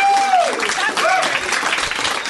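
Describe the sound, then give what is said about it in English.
Audience applause at a stand-up comedy show, a thick burst of clapping that stays strong and steady for the whole stretch. “I'm able to accept your applause.”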